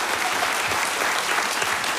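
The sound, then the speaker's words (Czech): Audience applause in Havlíčkův Brod: dense, steady clapping from many hands forms an even, crackling wash that keeps the same moderate level for the whole short stretch. “Dobrý večer, pánové. Takhle vám tleská Havlíčkův Brod.”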